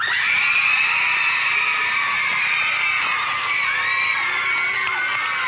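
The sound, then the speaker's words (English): Children clapping and shouting as teams are welcomed on a game show, a continuous high-pitched din of cheering young voices and whoops that stays level throughout. “I don't know why they let the kids clap for so long.”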